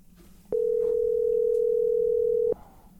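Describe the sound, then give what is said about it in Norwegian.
Telephone dial tone heard while a call is being placed: a single steady, mid-pitched hum that switches on abruptly, holds unbroken for about two seconds, then cuts off over faint background noise. “så da er det naturlig å ringe opp Roger og fortelle han det”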